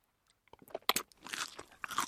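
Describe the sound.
Crunching while eating caterpillars, a salty South African snack: many irregular, crisp crunches of chewing, fairly faint, that grow busier toward the end.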